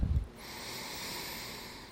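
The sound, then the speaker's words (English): A deep human breath: a brief low snort-like puff, then a long, soft, airy hiss of breathing that holds steady and quiet to the end. “going to start this thing off with a deep breath.”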